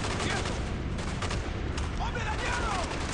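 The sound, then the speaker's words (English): Rapid gunfire in a video game: dense, continuous volleys of sharp shots crackle with no clear gaps, loud throughout. “Shooting him in the back.”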